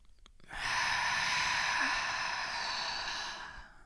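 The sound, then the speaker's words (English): One long, deep breath in and out, a steady airy rush lasting about three seconds that fades at the end, heard alone. “would like to take a big, motherfucking big deep breath in and out”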